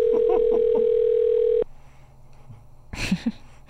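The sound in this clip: A telephone dial tone after hanging up a call: a steady, loud, unbroken tone for about a second and a half that cuts off abruptly into low hiss, with a brief faint voice near the end.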